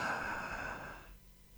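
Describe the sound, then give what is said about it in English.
A deep, slow breath is drawn in during a guided breathing exercise. The soft, airy rush lasts about a second, then fades away, with no talk. “Let's draw a deep and cleansing breath on the count of three. One, two, three. Inhale.”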